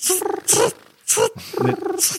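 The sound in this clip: A human voice imitates a cricket chirp with a few raspy, buzzing bursts separated by short pauses, sounding more throaty and pulsed than a real insect.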